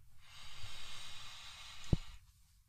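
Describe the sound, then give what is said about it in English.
A long, steady, breathy inhale lasts about two seconds as someone takes a deep breath during a guided breathing exercise, followed by a brief sharp click near the end. “So everyone take a deep breath in. Then let it out. And take another deep breath in.”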